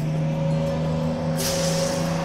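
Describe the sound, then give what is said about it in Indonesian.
A crowded bus driving along, heard as a steady low engine hum with a constant drone, and a brighter hiss joining partway through. “Pak Tejo karena bus yang ditumpanginya penuh sesak”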